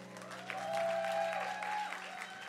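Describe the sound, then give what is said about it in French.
Church audience cheering and clapping for the musicians, a sustained roar of applause that swells in the middle and eases slightly toward the end, over a steady held tone. “Juste notre keyboardiste va rester. Merci. Est-ce qu'on peut acclamer les musiciens également?”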